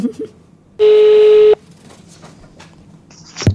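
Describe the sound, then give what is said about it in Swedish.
A telephone call being dialled and ringing, heard as one steady, buzzy electronic tone lasting under a second. A quiet stretch follows, then a short, higher beep near the end. “Så jag tänkte vi skulle ringa Duff mm. och prata med honom.”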